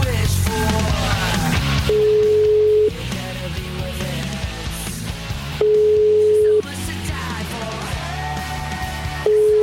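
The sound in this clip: A telephone ringing tone sounds while a call is placed: a plain mid-pitched beep about one second long repeats at regular intervals, two full tones and the start of a third, over continuous background music.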